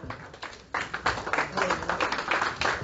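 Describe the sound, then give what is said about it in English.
A church audience claps hands to welcome a speaker. A quieter start gives way to a steady, rhythmic run of many claps that keeps an even pace to the end. “But put your hand together as he comes.”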